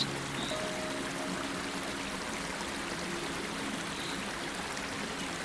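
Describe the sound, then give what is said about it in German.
Spring water flows into a large basin and on into a riverbed with a steady, dense rushing and splashing that stays even throughout. No voices are heard. “Die Quelle fließt in ein großes Becken und ergießt sich anschließend in sein Flussbett.”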